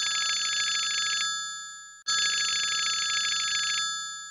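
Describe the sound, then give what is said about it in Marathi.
A phone ringing: two bright, loud electronic trilling rings, each about a second long, separated by a brief pause, with no talk. “एक minute, प्रभ्याचा phone.”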